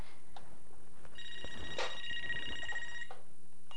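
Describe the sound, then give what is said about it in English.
A telephone rings with a sustained electronic trill lasting about two seconds, set among faint clicks and knocks. “Uh-oh, phone's ringing again.”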